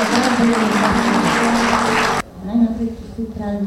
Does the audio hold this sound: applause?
yes